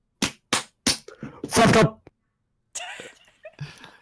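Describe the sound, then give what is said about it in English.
Three sharp belly slaps land in quick, evenly spaced succession, loud and crisp against silence, followed by people talking and a broad, noisy burst. “give me your intro belly slap”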